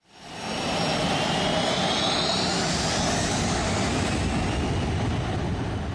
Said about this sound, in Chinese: 机场人好多哦。